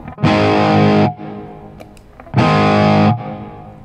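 Electric guitar through a Carbon Copy delay pedal with its knobs set low, giving a light reverb-like wash. Two loud, sustained, gritty chords each ring for about a second, with a quieter tail and faint string noise between them.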